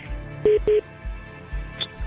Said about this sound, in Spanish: ¿Te están marcando? Aguántame, me está llamando el papá otra vez.